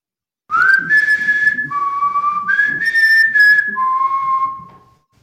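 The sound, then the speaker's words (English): Clear human-like whistling caught on a ghost-hunting EVP recording in a house: a note sliding upward, then a lower held tone, the two-part phrase repeated twice, loud and steady with no talk. “this is the Landon House clip, the whistle, one more time”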